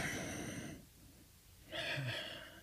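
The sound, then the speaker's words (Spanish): Slow chest breathing during a breathing exercise: one long, airy inhale, a brief quiet pause, then a breathy exhale with a faint voiced tinge, soft and without talk. “Ahora voy a respirar con el pecho.”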